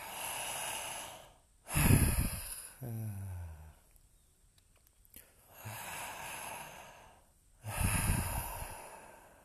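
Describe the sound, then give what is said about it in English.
Slow, breathy exhales during a guided breathing practice. A few long, soft outbreaths rise and fade, separated by quiet pauses. “Just let go of the exhale. No forcing, no pushing, just.”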